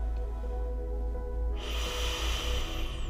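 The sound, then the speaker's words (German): Slow, deep inhalation through the nose, an airy breath that swells in strength midway and holds, over a steady low hum and soft sustained tones. “Atme langsam und tief durch deine Nase ein”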